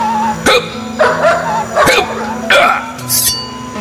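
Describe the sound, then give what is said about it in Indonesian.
A dog barks repeatedly, a series of loud, sharp barks and yips in separate bursts with short pauses between them. “Aya anjing ngagogog”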